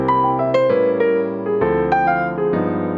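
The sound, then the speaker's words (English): A jazz lick played over a 1-6-2-5 chord progression in concert C major (C major 7, A7, D minor 7, G7): a few clear melodic notes over sustained chords, with the harmony changing several times in a steady rhythm. “lick number five is also over a very common chord progression in jazz, which is the 1-6-2-5 chord progression. And it sounds like this.”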